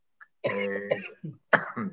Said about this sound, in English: you see, we have the same cough.